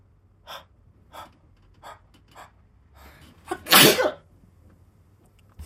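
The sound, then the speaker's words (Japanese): A person sneezes: a few short, breathy inhales build up, then one loud, sharp sneeze bursts out, followed by a faint breath in otherwise quiet surroundings. “待って、くしゃみ出そ”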